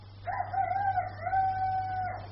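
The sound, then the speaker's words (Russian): A rooster crows once, a loud drawn-out cock-a-doodle-doo of about two seconds that holds a fairly steady pitch, heard alone over a constant low hum. “За окошком снова прокричал петух”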